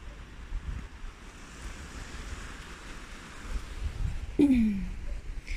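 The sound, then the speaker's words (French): Water rushes steadily in a flooded river in Spain, swollen to about three times its width, with trees half underwater. The rush is faint and even, mixed with wind noise, and a short falling tone sounds near the end. “rivière devait à peu près trois fois sa largeur. C'est le reste des inondations. C'est vrai que les arbres ont leur tronc à moitié dans l'eau.”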